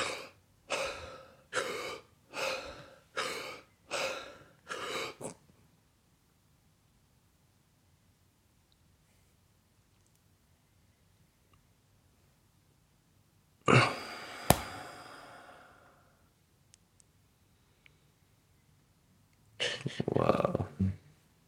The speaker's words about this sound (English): So you do four inhales, and the fourth one, you pull all the way in, and then you hold it, and you try to push